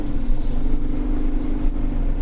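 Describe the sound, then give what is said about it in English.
A car accelerates on a highway, giving a steady low engine drone with a hum near its base and broad road and wind rumble that stays loud and even throughout. “So I cleared the turn. I'm going to accelerate.”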